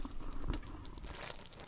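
Faint wet squishing and fizzing as vegetables in a jar of fermenting kimchi brine are pressed down, with one soft thump near the middle and steady low bubbling throughout.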